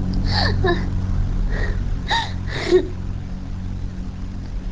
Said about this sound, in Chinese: 伴随着急促的呼吸，气息浑浊，乍一听就像在哽咽。